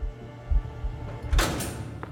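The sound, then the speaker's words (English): Heavy secure prison door swinging open: a faint dull thud, then a brief rushing scrape, heard alone over a low, steady background hum. “His entourage of guards took him through one last secure door.”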